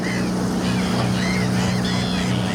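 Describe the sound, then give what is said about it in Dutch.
A boat travelling on the water near Markerwadden, its engine giving a steady, unbroken low drone mixed with continuous rushing, washing noise. “Verslaggever Jesper Buursink gaat mee op de boot en hoort de eerste voorzichtige resultaten”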